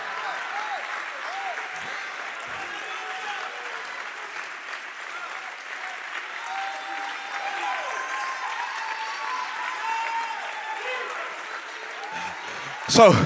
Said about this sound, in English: Somebody clap your hands to the one right now. Come on, somebody clap your hands to the one right now.